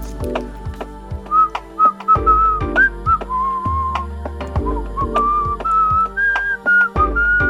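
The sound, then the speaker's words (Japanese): Mouth whistling from a person asked to show whether they can whistle: a clear, mid-pitched tune of short wavering notes that runs steadily throughout, with low background hum beneath. “口笛うまく吹ける？ どれどれ”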